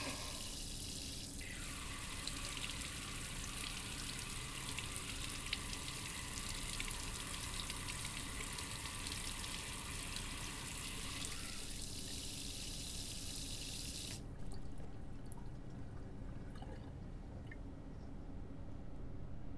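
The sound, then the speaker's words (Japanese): Hot water runs from a shower into a cup as a steady, faint hiss of flowing water. The brighter splashing layer cuts out near the end, leaving a softer, duller flow. “まずはシャワーからお湯を出して、コップにしてお湯をためて、”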